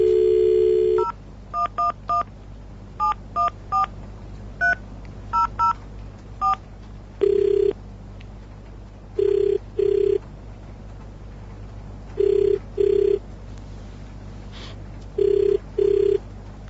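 A telephone number is tapped out as a quick run of beeping keypad tones. A ringing tone follows in evenly spaced double rings repeating several times, with no voices.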